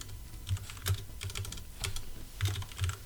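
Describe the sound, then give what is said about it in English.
Typing on a computer keyboard: a short, steady run of many crisp key clicks with a few heavier thumps, with no one talking. “when I typed in walk, it came up with base on balls.”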